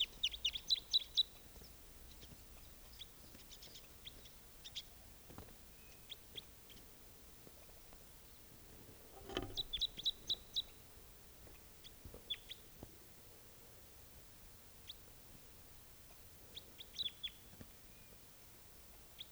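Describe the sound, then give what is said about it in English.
Faint, high chirps from a wild bird come in short clustered bursts separated by quiet gaps, repeating several times with no talking. “Same bird.”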